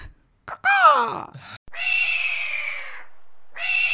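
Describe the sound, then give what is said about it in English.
A human voice imitates a screeching hawk. A short warbling cry is followed by two sustained, high, strained screeches, and the second screech is cut short. “Do you want to try a hawk noise?”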